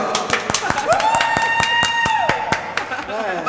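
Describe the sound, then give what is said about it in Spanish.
Applause sound effect fired from a soundboard: evenly spaced, crisp claps repeat in a quick regular pattern, with a sustained wavering tone riding over the middle stretch. “Tenemos aplausos ahí en el teclado.”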